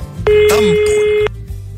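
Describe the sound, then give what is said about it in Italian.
A telephone call tone sounds as one loud, steady beep lasting about a second, with quieter noise before and after it. “Ora intanto vediamo se ci risponderanno al telefono”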